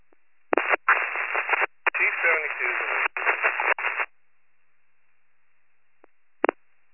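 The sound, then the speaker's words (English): Crackling static bursts from an advisor radio on a fire engine's emergency channel, several harsh band-limited bursts over about four seconds, then silence broken by a click and one short final burst. “The advisor radio is all static.”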